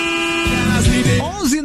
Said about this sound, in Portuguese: A buzinada aqui, todo mundo, olha. Tomou conta. Brasil buzinado.